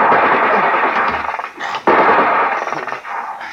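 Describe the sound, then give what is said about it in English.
.50 caliber machine gun fire: rapid bursts of shots ripple through a dense, continuous roar, broken by one sharp, heavy blast partway through. “Oh, it's 50 caliber. I wish they would send boarders, then they'd stop firing.”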